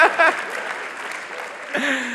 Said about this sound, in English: Okay, you can clap that, yes.